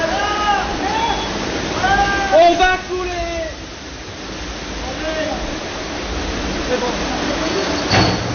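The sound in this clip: Rushing water roars through a sewer collector around a moored boat under heavy water pressure. The noise is steady and broad, and voices talk over it.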